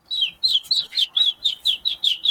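A person whistling an imitation of a bird tweeting, a quick, even series of about nine high, sharp chirps, each dipping slightly in pitch, loud and alone.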